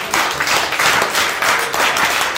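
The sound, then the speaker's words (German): Steady applause from a crowd, a loud, dense wash of clapping that holds at an even level throughout without breaks. “Also ehrlich, so viel Jubel hätte ich gar nicht erwartet.”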